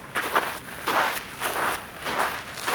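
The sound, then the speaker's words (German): Footsteps crunch as a walker climbs up onto snow in sturdy shoes from a slippery slope, a steady series of muffled, uneven steps. “Nein, wir gehen auf den Schnee, komm. Wir gehen auf den Schnee. Wir gehen auf den Schnee rauf.”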